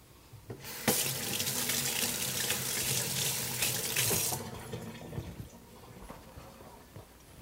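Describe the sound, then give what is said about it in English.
Tap water runs steadily as someone rinses their hands while making a smoothie. A loud, even rush of flowing water starts abruptly, holds for about three and a half seconds, then drops to faint dribbles and quieter splashing. “Look at my hands. I'm just gonna wash my hands off here.”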